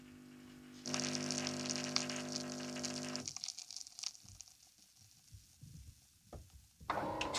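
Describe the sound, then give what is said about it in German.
An automatic coffee machine runs coffee into milk: a steady, humming pump with hissing flow for a couple of seconds, then it cuts off, leaving irregular trickles and drips before a brief hissing burst returns. “Jetzt läuft der Kaffee in die Milch, was ja in der Kaffeebar anders ist.”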